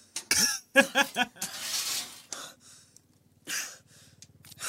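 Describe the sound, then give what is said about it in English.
Heavy, out-of-breath panting: a few sharp, breathy gasps in quick succession, then a long rasping exhale, a pause, and another burst of breathing near the end. “Who is panting like that? Is it the wife? Is it you? Who knows? Probably the cop. Kneeling down like that got you out of breath.”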